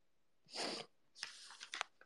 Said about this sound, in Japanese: くしゃみ浴びた？キモいだろ。